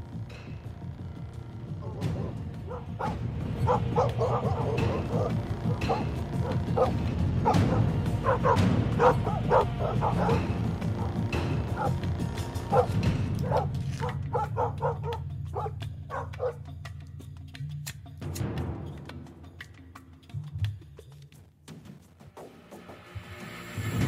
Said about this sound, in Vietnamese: Lập tức chó của cả khu ấy cắn hóng ra bên ngoài ông ổng.